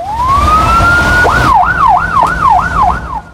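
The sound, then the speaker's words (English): An ambulance siren sounds loudly as the ambulance speeds off along a freeway. A long rising wail gives way to a rapid series of rise-and-fall yelps. “The hitman watches the ambulance speed off.”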